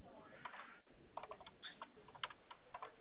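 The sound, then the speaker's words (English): Faint keyboard typing: many light, quick key clicks in uneven bursts as someone types up a job. “I'm just getting this typed up”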